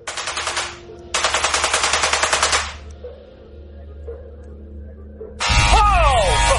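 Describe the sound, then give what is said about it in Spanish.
A 400,000-volt electrical discharge throws purple sparks from a test system running at maximum power. Three loud bursts of harsh, rapidly pulsing buzz and crackle are heard, the last one with a voice exclaiming over it. “¡Esos son 400,000 voltios! Hace mucho ruido.”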